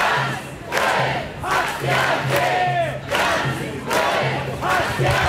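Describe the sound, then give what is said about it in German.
A large crowd of protesters chants at a street demonstration in Cologne, their voices rising in loud, rhythmic bursts. The chant repeats many times with brief dips between the calls. “Ganz viele Leute sind da auf die Straße gegangen, laut Polizei rund 9000.”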